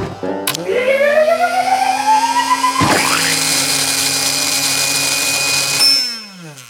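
A kitchen blender runs with a motor whine that climbs in pitch as it spins up, then turns into a harsher, noisier steady whir before winding down and stopping at the end.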